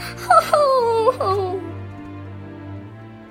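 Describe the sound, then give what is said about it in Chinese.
A storyteller's voice imitates Pinocchio crying loudly, a short, wavering wail that drops in pitch and trails away. “可怜的匹诺曹说到这里，哭了起来。他哭得如此大声，以至于五公里以外都能听到他的哭声。”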